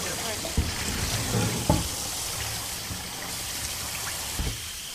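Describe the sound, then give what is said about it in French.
Water rinsing pigment paste out of a textile screen-printing screen, a steady running hiss and trickle broken by a few brief splashy knocks, at moderate level. “Donc là, vous rincez l'écran. Voilà, je rince l'écran.”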